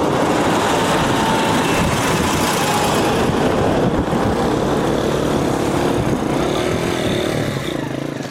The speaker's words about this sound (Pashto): د کرکټ دې لوبې ته چیرمه د ملي اردو ضربتي ټانګونه او د ملکي کسانو رخشې او موټرونه ګډ تګ راتک کوي.